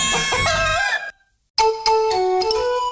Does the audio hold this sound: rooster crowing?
yes